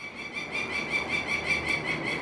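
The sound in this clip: Peregrine falcon chicks and their mother call out while being banded, giving a steady, rhythmic run of many shrill, squealing notes over a hissy background.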